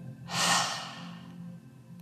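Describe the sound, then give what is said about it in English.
A forceful yoga lion's breath exhale with the tongue stuck out, following a deep belly inhale and a held breath: one long, breathy rush of air that swells and then fades into quiet. “We're going to inhale deeply into our belly. Hold the breath here. You're going to stick out your tongue and you go,”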